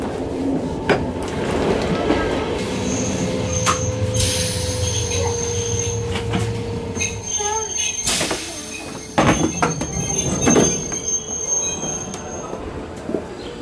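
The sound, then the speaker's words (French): Metal wheels squeal as a train arrives at Montreux railway station in Switzerland, with shrill screeches, hissing bursts and rumbling carriages running continuously, moderately loud, and sharper squeals and clanks near the end. “Bon, alors là, je me trouve à la gare de Montreux. Je viens d'arriver.”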